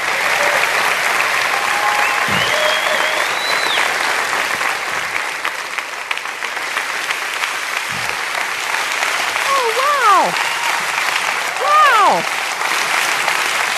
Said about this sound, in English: I am certain that a lot of that applause was for my husband of 35 years.